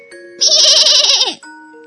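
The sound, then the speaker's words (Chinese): A young goat bleats loudly once. The bleat is bright and wavering, quivering in pitch, then drops away sharply at the end. “小山羊壮壮推开窗户，用力大叫一声”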